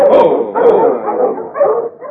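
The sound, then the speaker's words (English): Sled dogs on a narrow trail bark and yip in a dense, excited stream of mid-pitched calls, filling the whole moment without pause. “Stop your dogs, will you?”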